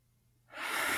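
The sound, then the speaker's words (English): A deep breath drawn in slowly, arriving after a short silence as a soft, airy rush that swells quickly and then holds steady and fairly loud until the end, with no talking. “I close my eyes and I turn the brain off, and I take a deep breath”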